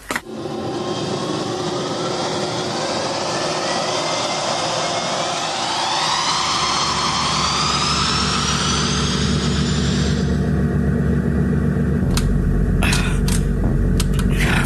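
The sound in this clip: A spacecraft engine roars at launch, a loud sustained rumble with whining tones sweeping steadily upward, then settling into a deeper, even roar, with a few sharp clicks near the end.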